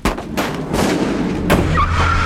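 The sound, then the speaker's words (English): Gunshots ring out during a car chase: a few sharp, loud bangs in quick succession over a steady low engine rumble that continues to the end. “Oh! They're still firing! We've gotta shake them!”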